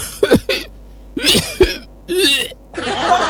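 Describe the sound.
A narrator's voice imitates an old man coughing: a few harsh, rasping bursts in a row, fairly loud, separated by short pauses.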